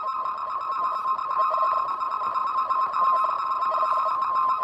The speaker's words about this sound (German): Wenn wir diese Aufnahme nun verlangsamen, erinnert uns das, was wir nun hören, fast an ein Morse-Signal.